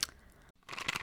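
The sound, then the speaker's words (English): Someone chews a strawberry-flavoured fertility gummy, making two short bursts of soft, moist crunching separated by a brief silence, fairly faint. “Do you hear that? That is the sound of the brand new and delicious You Natural Conception for Her in their juicy strawberry gummy flavored.”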